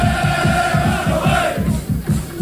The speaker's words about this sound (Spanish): Ya se dejan sentir por las calles de Leipzig y, de momento, Manolo, lo mejor es que a esta hora, ambiente de cordialidad absoluta con los seguidores vallecanos. Así suenan a esta hora las calles de Alemania.